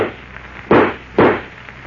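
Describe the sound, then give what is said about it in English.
Two gunshot sound effects in a Superman radio drama. Sharp, loud bangs come about half a second apart, and each decays quickly. “Don't move, I said. I'll shoot. Go ahead.”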